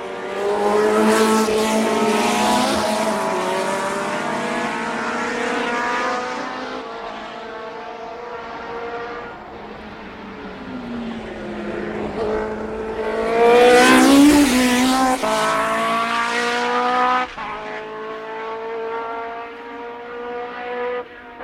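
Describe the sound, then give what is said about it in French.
Several racing cars take an S-bend together, their loud engines overlapping as the pitch rises and falls through the corner, with a sharper surge of revving partway through. “Franchissement d'un virage en S à plusieurs.”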